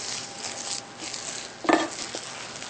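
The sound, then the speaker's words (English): Millet being mixed thoroughly with nutritional yeast: faint, soft scraping and shuffling stirring strokes, with one sharper clink partway through. “So we're going to mix this really thoroughly so that everything's incorporated.”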